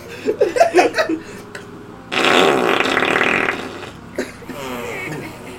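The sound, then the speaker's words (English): Fart noises imitated with the hands: a quick run of short, sputtering bursts, then one long, sustained raspy blast, followed by a softer, shorter one. “See how much better I am. Leave a comment if you can identify whose farts are better.”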